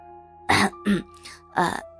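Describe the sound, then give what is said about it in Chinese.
An older man clears his throat in three rough, gravelly bursts, the last slightly longer, set against a faint steady tonal hum, with no words spoken. “他赶忙清了清喉咙说道：”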